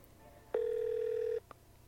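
An unanswered phone ringing on the line: one faint, steady electronic ring tone held for just under a second, then a brief click in the quiet that follows.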